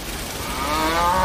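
Cattle lowing on a dry desert farm where windpumps draw groundwater for sparse grazing. A single low, drawn-out moo swells slightly louder toward the end.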